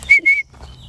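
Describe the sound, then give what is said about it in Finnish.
A person whistles to call roe deer: two short, high, clear whistle notes in quick succession, followed by a faint, thinner high tone. “Mites niitä kutsutaan? Viheltämällä. No, yritä sitä uudestaan.”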